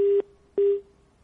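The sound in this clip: Busy tone on a telephone line as a call cuts off: two short, steady mid-pitched beeps separated by a brief gap, clean and alone.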